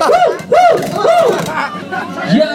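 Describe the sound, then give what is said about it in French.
Crowd noise in a packed rock concert venue in a cellar during soundcheck: loud, dense babble with rising-and-falling voiced shouts that keeps going with no pause. “Enfin, oh, c'est la balance. Et c'est bien blindé la salle.”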